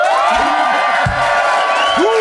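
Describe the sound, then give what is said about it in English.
An audience at a mock-trial debate applauds and cheers in a dense, continuous wash of noise, with high whoops and whistles rising above it throughout. “But if you think John and Fanshawe made the best case, please applaud now.”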